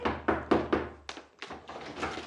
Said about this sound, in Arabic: ايه ده؟ دي لا مؤاخذة خبطة رزلة وسقيلة.